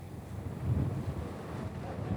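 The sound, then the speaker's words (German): Santa Ana winds blowing in Los Angeles, a steady low rumble of wind against the microphone with a stronger gust swelling near the middle. “Ja, die größte Sorge ist tatsächlich der Wind, der jetzt wieder stark zunimmt. Diese Santa Ana-Winde, die kommen im Moment hier von Nord nach Süd”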